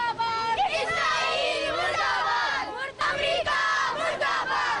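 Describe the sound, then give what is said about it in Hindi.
A protest crowd of children, girls and women outside United Nations offices in Islamabad loudly shouts slogans against Israel and America. Dense, overlapping yelling voices continue without a break. “एहतजाजी मुजाहरे में छोटे बच्चों, बच्चियों और खवातीन ने शदीद मौसम की परवाह न करते हुए भरपूर शिरकत की और इसराइल और अमेरिका के खिलाफ शदीद नारे लगाए।”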